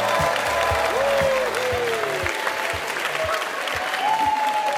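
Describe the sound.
Warm applause from a live studio audience at a university campus in Pennsylvania, a dense continuous clatter of many hands with a few faint whistles, running steadily for the whole stretch above a low regular thumping.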